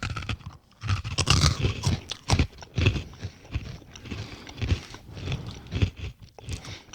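Small, crunchy garlic-flavored Maggi noodle snack pops are bitten and chewed with loud, close crunches. Many irregular bursts of crunching and chewing continue throughout.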